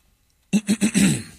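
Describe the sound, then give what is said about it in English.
Throat clearing: a few short, rough voiced bursts in quick succession, followed by a longer, drawn-out rasp, all after a moment of silence. “Clear your throat.”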